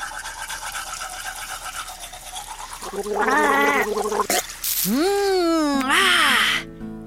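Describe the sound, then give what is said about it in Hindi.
Tooth brushing and mouth rinsing with toothpaste in a cartoon: scrubbing and gargle-like wet sounds grow loud after a quieter start, mixed with playful voice-like tones. “मुंह भी धो लिया और brush भी कर लिया”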